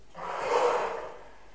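Forceful exhale during a breathing exercise: a single breathy rush of air that swells to a peak in the middle and then slowly fades, lasting about a second and a half, with no voices.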